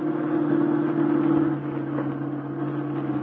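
A car slowing down while driving at night, giving a steady, droning engine hum that eases slightly in loudness after the midpoint, with no voices.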